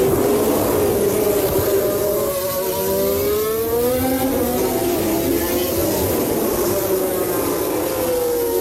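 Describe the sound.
Formula 1 cars racing, a Red Bull and a Mercedes fighting for second place on the final lap, their engines a high, buzzing whine whose pitch climbs and dips as the cars accelerate out of corners.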